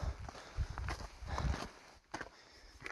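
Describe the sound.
Footsteps of a hiker on a night hike on a mountain trail in Japan's Southern Alps, toward Warusawa-dake and Akaishi-dake: several steady, moderately loud crunching steps in an even walking rhythm, with no talking.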